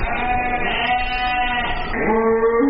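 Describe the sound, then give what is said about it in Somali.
Sheep and goats bleating at a livestock slaughter yard in Djibouti city: many overlapping, wavering bleats that run continuously and loudly, with the tone shifting partway through. “V O A ayaa soo booqatay xeradaasi dabaaxadda xoolaha lagu qalo ee magaalada Jibuuti”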